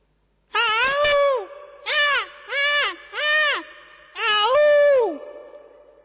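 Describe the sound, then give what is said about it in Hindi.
A crow with a slightly hoarse voice caws in a series of five harsh, arching calls: one long caw, three shorter ones in quick succession, and a final drawn-out caw that trails away. “कौवा, कौवे का थोड़ा गला बैठा है, हिमाचल का है लग रहा है मुझे, कौवा,”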